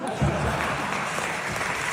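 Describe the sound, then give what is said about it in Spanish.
Applause from a theatre audience at the Teatro García Lorca, a dense, continuous clatter of clapping with a low crowd murmur underneath. “Provocaba también las risas y los aplausos en el Teatro García Lorca.”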